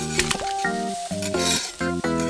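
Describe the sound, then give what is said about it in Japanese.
An egg fried thinly in a pan sizzles steadily, with utensils clinking against the pan, while sustained background music tones play throughout. “最後に卵を薄く焼いて、”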